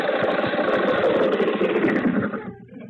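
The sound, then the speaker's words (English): An engine running, a rough, dense, sputtering rumble that holds steady and then cuts out shortly before the end. “How are you getting on with that engine?”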